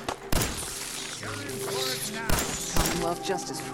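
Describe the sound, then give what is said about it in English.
Pistol shots fire at radroaches in a video game, a few sharp bangs spaced irregularly over ongoing game sounds and a speaking voice. “We're dealing with the stupid rad roaches. Let me get just like a pistol out.”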